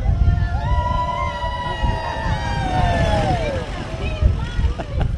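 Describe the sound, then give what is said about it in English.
An employee shuttle bus drives past in a procession: a steady engine drone carries tonal whines that slide downward in pitch, all over continuous crowd noise. “there's an employee shuttle driving by, getting a cheer, too.”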